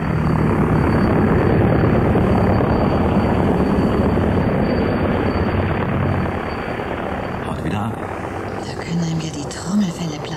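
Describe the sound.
An old, outdated C-43 spacecraft lands, heard through a damping plexiglass dome. Its loud, steady, rumbling roar fills the opening seconds, then eases somewhat after about six seconds.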